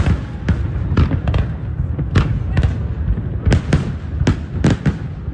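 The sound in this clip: Fireworks burst over the Brooklyn Bridge in New York: many sharp cracks and pops fire in irregular succession over a steady low rumble, fairly loud throughout.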